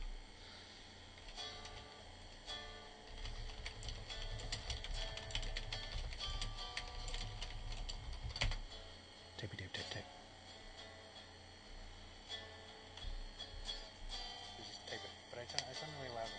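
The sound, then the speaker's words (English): Typing on a computer keyboard, a faint, steady run of many light clicks under people talking. “I should just type it. But I sound really loud when I type. So, typey, type, type.”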